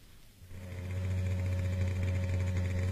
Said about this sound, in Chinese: 在深夜寂静的街上，一辆摩托车飞速地穿过大街小巷